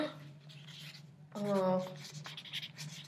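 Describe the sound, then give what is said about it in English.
A pen scratches across paper as someone crosses out writing, giving a rough, rasping scribble under people talking. “Are you crossing out?”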